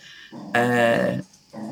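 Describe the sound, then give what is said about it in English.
An excited dog lets out a single loud, drawn-out bark, set between quieter, lower sounds before and after. “distracted by your dog there. Excited about something.”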